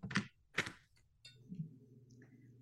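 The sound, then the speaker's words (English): Cards shuffled by hand during an intuitive medium reading: two quick papery riffling bursts, then softer scattered ticks over a faint low hum. “She has some cards. She's shuffling some cards right now.”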